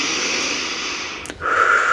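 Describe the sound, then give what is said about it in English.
Deep breathing during a guided meditation: a long, steady, airy breath, a brief break, then another breath that starts more loudly. “nice deep breaths here. Drawing in that energy through both ends of the tube.”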